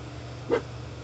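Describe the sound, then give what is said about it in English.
A dog gives one short, sharp bark in the background. The single brief yelp stands only a little above a steady low hiss. “I don't know if you can hear my dog in the background.”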